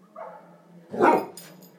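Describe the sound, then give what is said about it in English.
A Spitz-type dog with a profuse coat gives a single fairly quiet bark, a short rough burst rising out of faint background murmur, followed by a few softer yips. “I wonder what that dog said then.”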